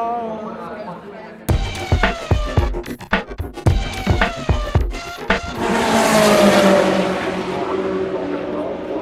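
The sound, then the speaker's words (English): A race car passes during a 24-hour endurance race, its engine swelling into a loud, broad roaring rush that slides down in pitch and lingers as a sustained wash of noise. “We've got a racer. You can hear it going.”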